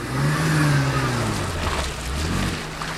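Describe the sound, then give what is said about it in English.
A BMW X5 SUV accelerates hard on a slippery winter parking lot, its engine giving a loud, sustained roar that swells and stays strong throughout. “at the wheel of a BMW X5, finds a slippery parking lot and guns it.”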